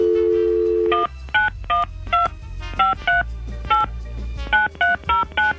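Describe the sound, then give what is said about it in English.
A steady telephone dial tone gives way to many touch-tone keypad beeps as a number is punched in. The beeps come in short, uneven groups, clear and fairly loud over a low background hum. “Dial it up.”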